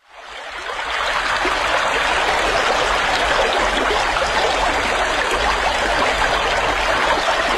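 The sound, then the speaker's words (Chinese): River water rushes and flows in a loud, steady, unbroken hiss that swells in over the first second and then holds level, with no voices. “一条小河拦住去路，河水哗哗地流着”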